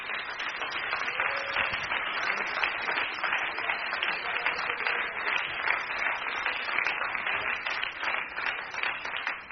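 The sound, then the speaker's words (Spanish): An audience bursts into sustained applause in praise of Christ at a religious gathering, dense and even clapping that holds at a steady loudness for the whole stretch with no talk over it. “Den un aplauso a Cristo que se lo merece.”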